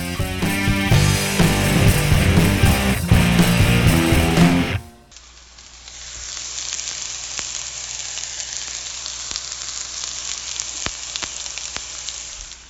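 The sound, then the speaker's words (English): A hot pan gives off a high-pitched sizzle, a steady crackling hiss scattered with small pops. It follows about five seconds of music and continues alone to the end. “That's the high sound of a hot pan. That pitch, that high, high pitch.”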